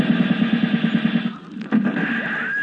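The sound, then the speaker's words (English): Bullets fly in a rapid rattling burst of gunfire, like a machine gun, and then a few sharper separate shots follow. “Hey, those are bullets. Yeah, are we being shot at?”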